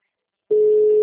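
A telephone busy signal: after a short silence, a single steady mid-pitched tone starts and holds at constant loudness to the end.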